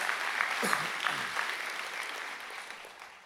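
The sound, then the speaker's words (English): Applause from a church audience welcoming their church family to a service: steady, dense clapping at moderate volume for the whole stretch, with a few voices mixed in. “Church, can you help me welcome our church family today? Come on, put your hands together,”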